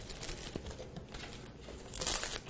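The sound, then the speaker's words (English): Plastic wrap being torn from a sheet, giving a continuous crackly, crinkling rustle that swells into a louder burst near the end. “some saran wrap or plastic wrap. You can take a grocery bag and do it between the grocery bag. This is the hardest thing I'm going to do today, is tear this and it not stick.”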